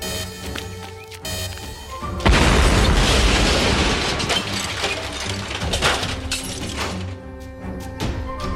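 Explosion of a hibernation suspension pod's anti-tampering mechanism: a sudden loud blast bursts in after a low rumble, then a dense roar of crackling, shattering debris that slowly eases but keeps going to the end. No talking is heard.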